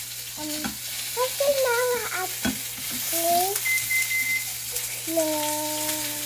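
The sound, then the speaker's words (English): Cooking noises of stirring and frying: a steady sizzling hiss runs throughout, with scraping and stirring against a pan and a few brief tonal, voice-like sounds over the top. “We have cooking noise in the background.”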